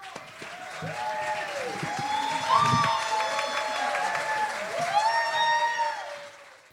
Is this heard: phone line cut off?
no

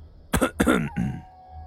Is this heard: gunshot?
no

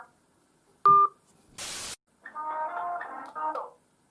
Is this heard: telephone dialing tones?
yes

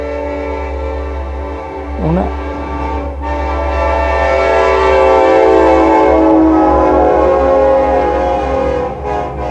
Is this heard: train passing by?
yes

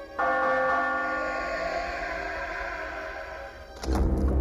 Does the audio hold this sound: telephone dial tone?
no

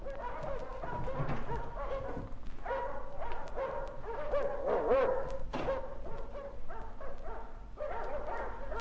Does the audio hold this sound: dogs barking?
yes

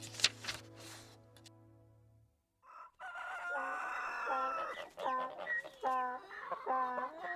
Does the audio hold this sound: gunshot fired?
no

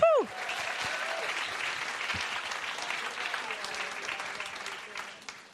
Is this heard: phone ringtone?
no

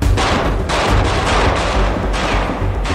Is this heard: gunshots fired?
yes

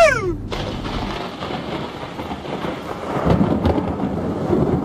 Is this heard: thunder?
yes

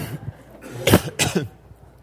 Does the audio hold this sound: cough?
yes

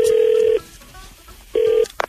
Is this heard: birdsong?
no

